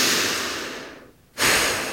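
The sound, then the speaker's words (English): A deep cleansing exhale during a guided breathing exercise: a long, airy breath that slowly tapers away, followed by a brief near-silent pause and then a sudden, full new breath that stays strong. “And exhale. Deep cleansing breath.”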